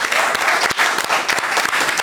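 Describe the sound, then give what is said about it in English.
Studio audience applause greeting a guest on a food and wine show, a thick, continuous patter of many hands clapping at a steady, fairly loud level without speech over it. “Put your hands together, please, for Poppy O'Toole.”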